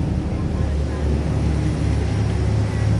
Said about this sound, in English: Ricky opened the throttles and sped us out through a fairly lumpy sea to the floating wind turbines.